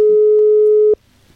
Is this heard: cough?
no